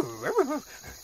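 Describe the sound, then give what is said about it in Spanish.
A small dog barks in a few quick, high yips with wavering pitch, then the sound trails off into quiet. “¿Quién es el intruso que no me deja informar? Es un perrito gracioso.”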